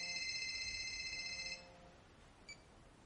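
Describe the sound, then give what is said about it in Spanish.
A mobile phone ringtone announces an incoming call: faint, steady electronic tones that sound for a moment and then stop, followed by a single short beep. “Coge el móvil y lo observa. La pantalla reza, Asun llamando.”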